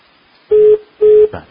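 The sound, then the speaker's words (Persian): Repeating telephone tone on a call cut off from Bandar Abbas: two long, steady mid-pitched beeps separated by short gaps, with a third beginning at the end, over faint line noise. “تماس آقای منصور از بندر عباس قطع شد، با ایشون خدافظی میکنیم.”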